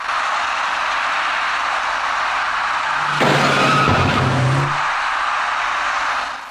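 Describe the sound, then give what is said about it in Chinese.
Car tires squealing in a skid at a traffic intersection as a dark car turns left: a tonal screech of about a second and a half, rising out of a steady roar of passing traffic. “而这位电动自行车的骑车人从深色小客的右侧直行而来，躲闪不及的深色小客与其发生相撞”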